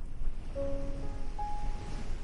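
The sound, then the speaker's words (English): Soft, continuous hiss of ocean waves washing on a sandy cove, faint and even, with a couple of brief steady tones above it and no talking. “The softness of the sand beneath you. the rhythm of the waves before you.”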